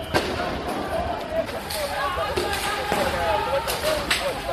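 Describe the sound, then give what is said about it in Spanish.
Crowd noise from a tense night-time street protest in Lebanon: a dense mass of overlapping shouting voices, punctuated by a few sharp, brief impacts. “Este es el sonido de las tensas manifestaciones de esta misma noche allí”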